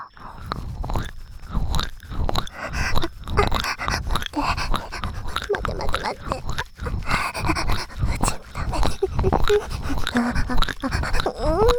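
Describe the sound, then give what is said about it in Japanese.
An acted moaning and panting voice breathes in quick, rough, breathy pants that come in dense irregular bursts with brief pauses, continuing throughout. “喘ぎ声の演技、私の方がうまいんですよ。ではもう一度。”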